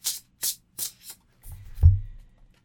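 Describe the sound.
A card drawn from a tarot deck: four short, papery swishes in a steady rhythm, then a longer rustling slide that ends with a soft, low thump, all fairly quiet.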